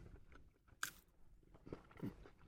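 Chewing and biting of tamagoyaki rolled omelette and salmon, eaten cold from a bento: faint, soft mastication with a sharper bite early on and a few more crunchy chews later, no talking.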